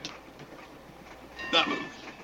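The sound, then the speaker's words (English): A train runs on rails with a steady low rumble and rattle that swells briefly louder toward the end of the short stretch. “We are on a train bound for the Russian front.”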